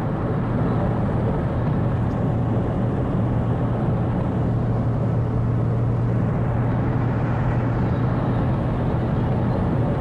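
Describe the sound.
A car driving along gives off steady engine and road rumble with a low droning hum. The noise stays constant and unbroken for the whole stretch, and no voices are heard.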